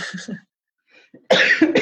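A few harsh coughs from a scratchy throat: a short burst, a faint breath after a gap, then louder, rasping coughs close together at the end.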